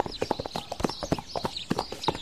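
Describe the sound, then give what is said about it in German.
Horses' hooves clip-clop as riders head back home, a brisk, uneven patter of many hoof strikes at a steady walking pace, fairly quiet and with no voices over it. “Komm, wir reiten zurück.”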